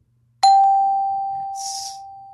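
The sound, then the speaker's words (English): A bright electronic chime for a correct quiz answer strikes once with a sharp onset, then rings as a single clear tone that slowly fades over about two seconds. “That's the sound of a correct answer.”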